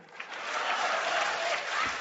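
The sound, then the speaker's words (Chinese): A crowd applauds, a steady, dense wash of clapping that swells slightly early on and holds at an even level throughout. “热烈鼓掌”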